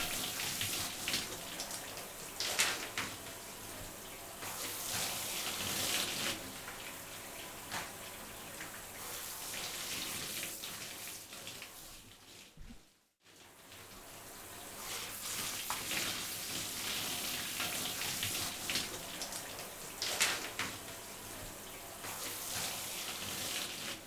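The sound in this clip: Warm water runs steadily during hair washing, a soft continuous rushing and splashing that goes on for about half a minute, briefly cutting out around the middle before flowing again.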